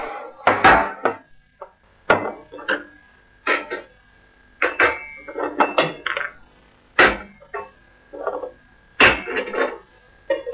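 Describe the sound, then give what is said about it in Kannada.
Kitchen utensils knock and clink as ginger and cardamom are crushed for tea. Many sharp, hard impacts come in irregular bursts separated by short pauses. “ಶುಂಠಿ ಹಾಕಿ ಏಲಕ್ಕಿ ಹಾಕಿ ಜಜ್ಜಿಬಿಟ್ಟು ಒಂದು tea ಮಾಡಿ ಕೊಡ್ತೀನಿ ಆಯ್ತಾ?”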